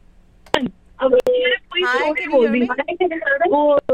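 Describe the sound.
A telephone call comes in on a radio show: a couple of sharp line clicks, then a caller and host talk over the phone line.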